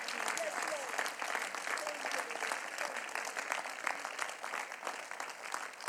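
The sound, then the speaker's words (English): A church audience claps its hands in a dense, continuous patter that stays fairly even for several seconds, with a voice sounding over the clapping. “Clap your hands for the Lord. Clap your hands for the Lord. Clap your hands. Clap your hands. Clap your hands.”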